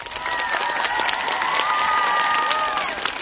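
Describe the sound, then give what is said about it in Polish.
A crowd applauding in welcome at a prayer gathering at Jasna Góra, a continuous wash of clapping with a few voices cheering above it, staying fairly even before easing slightly at the end. “Raz jeszcze Ciebie witamy oklaskami”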